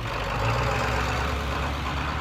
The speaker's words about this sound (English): As a couple of pickup trucks pull up